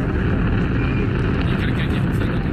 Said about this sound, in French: Et moi, je vous propose le voyage Apollo Z. C'est parti pour vivre le décollage mythique.